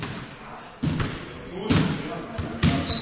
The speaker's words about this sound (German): Dienstagabend kurz nach 9. Um diese Uhrzeit trifft sich hier in Bobingen in der Laurentiushalle immer die Jugend zum Streetball spielen.